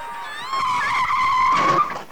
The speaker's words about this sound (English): A car pulls up.